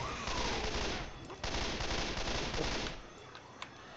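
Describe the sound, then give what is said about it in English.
Rapid gunfire in the video game Left 4 Dead 2 rattles in a dense, loud, continuous burst for about three seconds, then drops away to quieter background noise with a faint click or two. “Probably should not step in front of the fucking bullet fire”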